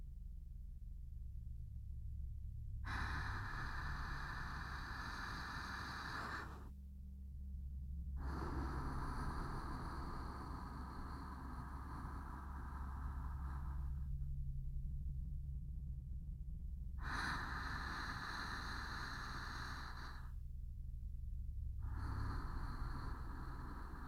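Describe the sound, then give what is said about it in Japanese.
Slow deep breathing during a guided exercise for someone in pain: several long, airy breaths separated by short pauses, over a steady low hum. “そのままの状態で深呼吸してみましょう。さっきと同じように一緒に。”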